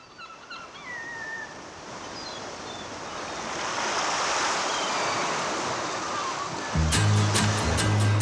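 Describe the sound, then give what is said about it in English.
Ocean wave sound effects open a song intro in stereo, a steady hissing wash of surf that slowly swells louder over several seconds before music cuts in near the end. “What is interesting is that the wave sound effects come back in halfway through the track in stereo, but not in the mono.”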